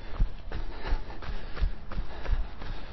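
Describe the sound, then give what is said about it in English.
Footsteps of someone jogging uphill toward High Beach, a steady, quick rhythm of many soft, scuffing footfalls at an even pace, with no talk. “As we're getting to the end of this, just jogging up the hill towards High Beach.”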